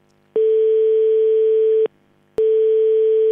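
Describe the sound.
A steady telephone line tone while a number is dialled: one long unbroken tone of about a second and a half, a short silence, then the same tone resuming and holding to the end, loud and alone.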